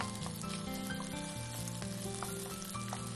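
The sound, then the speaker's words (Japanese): Gluten meat stir-fries in oil, browning until crisp. A steady, dense sizzle and crackle runs without pause and stays fairly quiet throughout. “油に入れたら早めにお箸やヘラなどで切るように炒めてください。そしてここでカリッと焼き色をつけていきます。”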